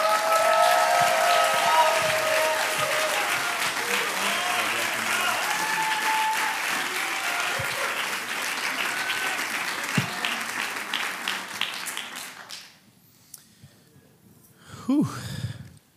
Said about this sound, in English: Would you guys give me a warm welcome as the man of God comes on stage and brings us the word?